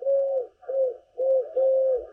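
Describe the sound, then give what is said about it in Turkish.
A dove recorded in Istanbul coos in a soft, low, repeated pattern of four hollow, mellow notes with short gaps between them, each note steady in pitch with a slight dip. “kumruyu da Orhan Gül İstanbul'da kaydettiler.”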